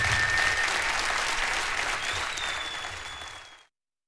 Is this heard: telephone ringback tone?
no